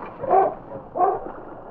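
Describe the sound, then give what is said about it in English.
Sled dogs of a husky team on ice near a shoreline give two short, whining barks less than a second apart, with a low, strained murmur between and after them. “On, King! On, you husky!”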